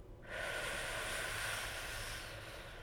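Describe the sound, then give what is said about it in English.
A slow, deep inhale during a guided relaxation breathing exercise, heard as a steady breathy rush lasting over two seconds, with no talk. “So don't be afraid to really put some oomph into that exhale. Here we go. Let's breathe in”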